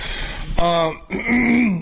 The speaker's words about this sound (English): Let me turn off the mic and finish clearing my damn throat.